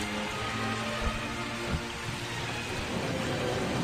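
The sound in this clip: Heavy rain pouring down as a dense, continuous, even hiss, with a couple of brief low thumps.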